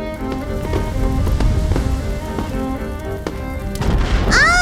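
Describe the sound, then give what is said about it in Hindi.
A bottle rocket set up in a bottle bursts on the ground instead of flying, giving off a dense, steady crackling sizzle broken by a few sharp pops, with whistling tones sweeping through near the end. “दीदी rocket, ये तो यहीं पे blast हो गया।”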